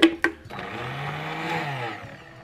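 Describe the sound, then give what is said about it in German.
A blender purees carrot, onion and algae: two sharp clicks, then a steady whirring motor drone with a low humming tone that holds and fades slightly toward the end. “Eine Möhre, etwas Zwiebel. Und die Algen zusammen püriert.”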